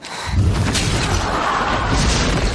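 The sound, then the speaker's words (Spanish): A dragon's tail crashes down onto the ground nearby with a deep, loud boom, and the heavy rumbling impact carries on as a dense roar through the rest of the moment. “La cola del dragón le cae cerca.”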